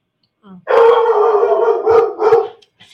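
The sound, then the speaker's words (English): A dog howls loudly in one long sustained wail, followed by two shorter howling yelps, with a faint voice briefly at the end. “My dog even agrees. Right, Ty?”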